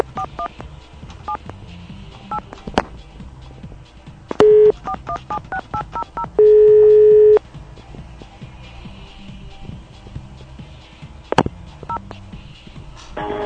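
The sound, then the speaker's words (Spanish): Telephone dialing tones as a call is placed again after going unanswered: a string of sharp clicks with two steady tones, one brief and one lasting about a second, over faint background hiss. “Me parece que no nos atiende el doctor Ortiz. Vamos a tratar de comunicarnos nuevamente a ver qué es lo que ocurre.”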